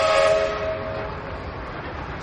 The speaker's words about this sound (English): A couple of trains.